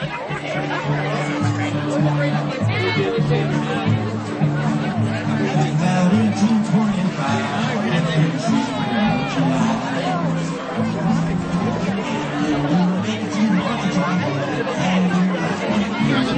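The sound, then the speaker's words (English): Crowd chatter at Carbondale's 2022 Potato Days festival forms a dense, steady babble of many overlapping voices, with no single speaker standing out. “Sounds from Carbondale's 2022 Potato Days.”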